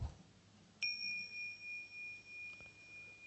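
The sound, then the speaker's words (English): A single bell strike during a quiet meditation: one clear, high, pure tone that sustains and slowly fades, with a gentle pulsing waver in its ring. “And there's the sound of the bell.”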